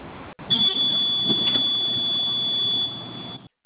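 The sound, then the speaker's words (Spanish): A panic button alarm buzzer blares in one steady, continuous high-pitched tone lasting a few seconds before it cuts off, loud and alone without talk. “¿Me puedes apoyar con tu botón de pánico? Nada más. Sí, ahí va.”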